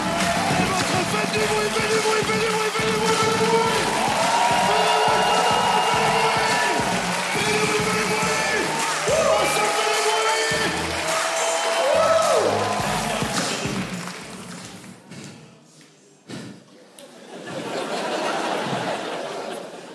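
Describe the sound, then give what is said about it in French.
Comedy club audience cheering and applauding a comedian: a dense, loud wall of crowd noise with laughter that holds steady for about fourteen seconds, then thins and dies down. “Préparez-vous maintenant à accueillir notre prochain artiste et faites du bruit où que vous soyez pour PV.”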